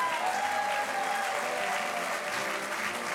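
An audience applauds to welcome a guest onto the stage, with steady, dense clapping that stays even for about three seconds and has no talking over it.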